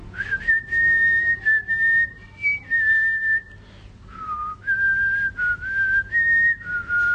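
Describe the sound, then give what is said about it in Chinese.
Someone whistles a tune alone: clear, sustained notes that step up and down in pitch, grouped into short phrases with brief pauses between them. “我成日有时都会吹口哨，都会吹呢个音乐出嚟嘅。”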